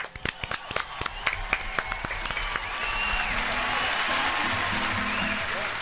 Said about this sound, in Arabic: يلا على هذه الإجابات الجميلة صفقوا لنفسكم